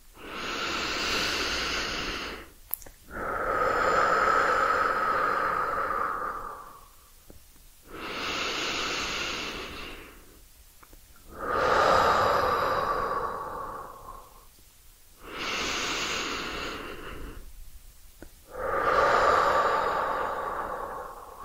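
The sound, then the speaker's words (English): Deep breathing during a breathing exercise: six long, airy breaths, each a slow whooshing swell separated by short pauses, fairly loud and with no talk. “Start off with a deep breath.”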